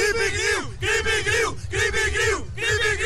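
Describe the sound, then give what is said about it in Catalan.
A group of people loudly shouts their team battle cry in unison, the same short chant repeated four times in a steady rhythm with brief gaps between each call. “Quin seria el crit de guerra? Quan és el crit de guerra?”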